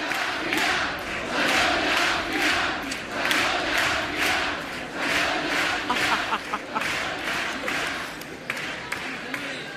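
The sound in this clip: The carnival audience at the Gran Teatro Falla reacts to a round of cuplés, clapping in a steady rhythmic beat over a loud crowd roar. The clapping thins out toward the end.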